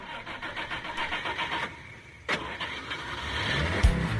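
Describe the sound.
A car engine is started with the key: a steady motor rumble, a sharp click midway, then the engine running and growing louder toward the end.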